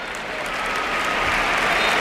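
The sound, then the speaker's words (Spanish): Stadium crowd ovation at a Spain versus Croatia football match as substituted player Fermín, number 9, leaves the pitch. A dense, continuous roar of applause swells slightly over two seconds. “Ovación para el del Campillo, para el onubense.”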